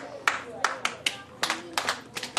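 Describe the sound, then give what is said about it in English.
Hand clapping in a classroom, a call-and-response clap pattern used to regain pupils' attention: sharp, separate claps in short rhythmic groups, some in quick pairs, with near silence between them. “When I clap, you need to clap after me.”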